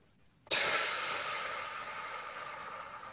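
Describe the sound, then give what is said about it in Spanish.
A slow exhale during a guided breathing exercise starts abruptly after a short silence, then continues as a steady, airy rush of breath that fades gradually until the end. “Muy bien. Otra vez. Y esperar. Y exhalar.”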